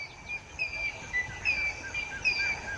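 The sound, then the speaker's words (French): Birds calling in a savanna, turtle doves among them, give many thin, high chirps and whistles that overlap across a soft, steady hiss. The calls stay fairly faint throughout. “Le son de la savane, je le reconnais entre mille, si j'ose dire. C'est assez étonnamment, c'est celui des oiseaux et en particulier celui des tourterelles.”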